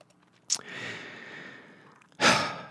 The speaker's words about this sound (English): I'm sure talking fast. I just better take a breath.